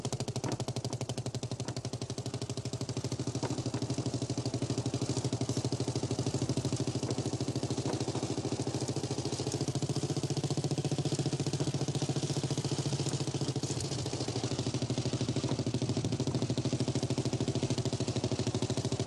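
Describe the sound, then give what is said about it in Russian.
A motorcycle with a sidecar carrying boards rides along a foggy village road, its engine a steady, constant drone with a faint rattling clatter that holds unchanged throughout. “По туманной дороге среди хат едет мотоцикл с коляской.”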